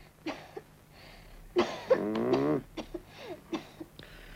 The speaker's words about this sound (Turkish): Derin nefes al bakayım yavrum. Öksür çocuğum bakayım.